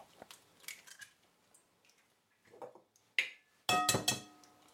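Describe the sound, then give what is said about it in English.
Eggs being cracked into a plastic cup: faint tapping and handling noises, then a sharp crack and a few bright clicking knocks near the end. “You have a plastic cup and two eggs. We're not going to actually use the whole two eggs. We're going to use one egg and one egg white, not the yolk. So first, what we're going to do, going to crack your eggs.”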